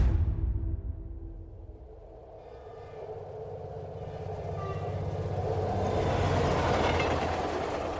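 A train at Hendaye railway station on the French-Spanish border in October 1940 rumbles low and steadily, its broad roar swelling louder toward the end.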